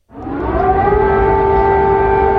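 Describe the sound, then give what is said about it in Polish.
Air raid siren wailing over Kyiv, a loud sustained tone that starts abruptly, climbs in pitch during the first second, then holds steady. “Syreny alarmowe wyły w Kijowie i w innych miastach od rana.”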